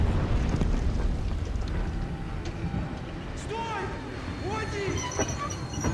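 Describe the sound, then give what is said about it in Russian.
A train hauling a sandbagged machine-gun platform behind a steam locomotive rolls through a forest as shells burst beside it: a continuous heavy rumble with a few sharp blasts, and a voice speaking over part of it. “Состав движется в сторону просеки. По бокам разрываются снаряды.”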